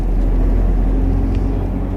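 A bus pulls away from a small station with a steady, low engine rumble that stays even and droning throughout, with no other clear sounds.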